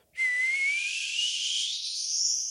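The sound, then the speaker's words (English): A person whistles one sustained, breathy tone that climbs slowly and steadily in pitch, with a hiss of air around the note. It holds at an even level for over two seconds without a break. “if you were to whistle, if you were to go,”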